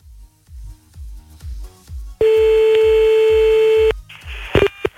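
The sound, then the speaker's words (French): A telephone dial tone sounds as one steady, unbroken tone for nearly two seconds, preceded by a run of rhythmic low thumps and followed by noise and a couple of short beeps. “Allez, c'est parti, premier appel maintenant”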